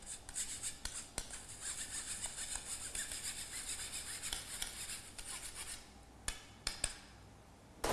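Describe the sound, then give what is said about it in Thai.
A spoon scrapes and presses flour batter smooth: faint, continuous rasping strokes with a gritty texture, becoming sparser toward the end, where a few sharper scrapes and clicks stand out. “เราก็จะเอานะครับหาอะไรมานะครับขูดมันลงไปนะครับให้แป้งเป็นเนื้อเดียวกันนะครับละเอียดนะครับ”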